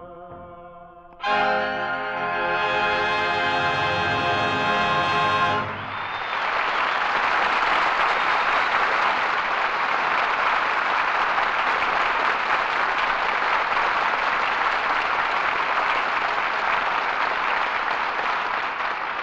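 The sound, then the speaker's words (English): Audience applause at a live show with a piano performer: a brief run of tonal music ends, then loud, steady clapping fills the rest, about thirteen seconds. “Oh, I only wish Senator Hickenlooper could hear that applause.”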